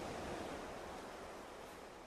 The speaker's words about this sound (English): Through it, we can see the ocean waves break in the near distance.